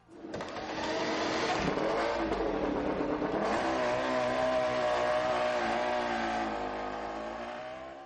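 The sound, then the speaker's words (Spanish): A racing motorcycle engine revving during a MotoGP race: a loud, sustained, high-pitched engine whine with shifting pitch that holds for several seconds before easing slightly at the end. “sonido de motociclismo, me pongo el casco ya.”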